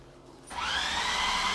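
A food processor motor kicks on in a kitchen after a short quiet stretch, then runs as a loud, steady whirring whine with a high buzzing edge until the end.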